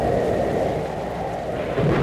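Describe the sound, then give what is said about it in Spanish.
A thunderstorm over a jungle: heavy rain and deep rumbling thunder blend into a loud, steady roar that carries on without a break. “A continuación se desata una terrible tormenta llena de truenos.”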